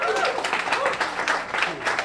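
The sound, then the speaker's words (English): Audience applause at a live storytelling event, a steady wash of clapping from a crowd, loud and even, with voices mixed in over it. “Please give a big round of applause.”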